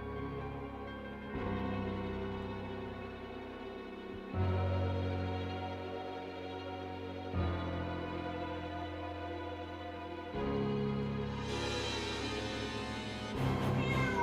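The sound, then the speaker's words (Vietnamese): A cat meows in a few long, drawn-out cries that repeat about every three seconds over a steady low drone. “Lại có tiếng mèo kêu vang lên.”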